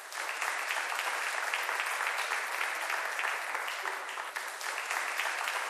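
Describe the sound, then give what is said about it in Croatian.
Applause from a concert audience welcoming the evening's host at a concert celebrating 30 years of Music Pub in the Lisinski hall: dense, steady clapping that stays loud and even throughout, with no voices over it. “Molim vas jednim velikim, najvećim pljeskom pozdravite večerašnjeg domaćina Zlatka Turkalja Turkija.”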